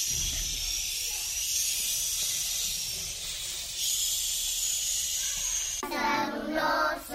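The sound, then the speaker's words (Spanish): Wind-and-snow storm effect: a loud, steady rushing hiss of blowing wind that holds for the whole stretch, swelling slightly in places without stopping. “Una tormenta de viento y nieve. Por encima... No podemos pasar. Por abajo... No podemos pasar. Tenemos que atravesar.”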